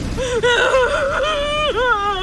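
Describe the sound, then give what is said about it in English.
A woman sobs hard in distress, a sustained high, wavering wail that rises and falls in pitch with brief catches and breaks, alone and fairly loud. “She was sobbing hard now”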